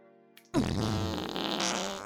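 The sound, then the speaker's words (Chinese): A big, loud fart bursts out abruptly after a faint hum and holds as one long, buzzy, rumbling blast of about a second and a half. “我放了一个大臭屁”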